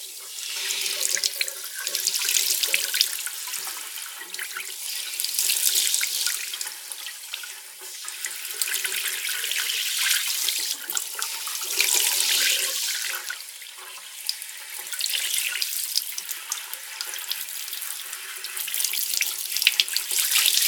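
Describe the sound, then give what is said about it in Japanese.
Warm water runs from a tap for washing someone's hair, a continuous hissing stream with shifting splashes as the flow is moved about. It holds steady for about twenty seconds with no talk. “うん、いい塩梅かな。じゃあ頭を洗うよ。熱かったら手を挙げてね。”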